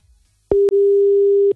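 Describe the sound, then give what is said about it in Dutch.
Ringback tone of an outgoing telephone call: one steady mid-pitched tone lasting about a second, briefly broken by a click just after it begins, then stopping cleanly with no voices. “Ja, gaan we bellen? Ja, hup, doen. Kom, doen. Dat ze opneemt ook.”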